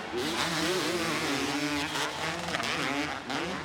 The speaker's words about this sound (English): Awesome to hear these two strokes wound out here.